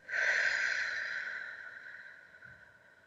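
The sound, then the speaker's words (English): A long breath blown out through the mouth, as through a straw, during a guided breathing exercise: one steady breathy hiss that starts strong and gradually fades over about three seconds, with no talking. “Let's take a breath in through the nose, out through the mouth like through a straw.”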